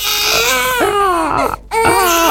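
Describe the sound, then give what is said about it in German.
A baby cries in loud, wailing bursts, its strained voice rising and falling, with a brief pause before a second outburst. “ein Baby weint im Supermarkt, im Café oder im Zug”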